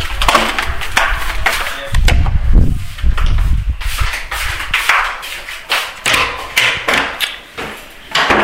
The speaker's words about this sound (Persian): ببین چقدر خنگم که یادم رفته در اتاق رو قفل کردم.